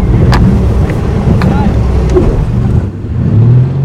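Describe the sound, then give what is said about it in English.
A motorboat takes off on a lake while towing a water skier, its engine giving a loud, steady low roar mixed with rushing wind noise for the whole stretch. “the boat takes off, loops around the lake”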